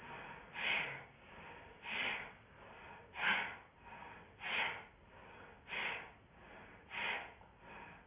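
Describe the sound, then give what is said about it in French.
Rhythmic breathing through the left nostril in a Bhastrika breathing exercise, with six strong, airy breaths at an even pace and softer breaths between them. “Le souffle qui passe dans le canal de gauche.”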